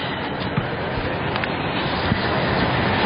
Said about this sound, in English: Green light is on, and the lure rolling for this. Race four, ready.